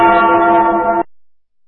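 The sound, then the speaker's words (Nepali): A radio station's noon time-check chime sounds as a single loud, bell-like tone rich in overtones, holding for about a second before cutting off abruptly into near silence. “Shukla Gandaki time check. यति बेला मध्याह्नको ठिक 12 बज्यो।”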